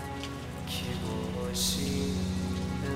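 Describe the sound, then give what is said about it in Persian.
Rain on a cold day, a steady hiss of drops on a surface that runs on without a break and stays fairly loud, mixed with sustained tonal music. “امروز تو این سرما، تو این بارون”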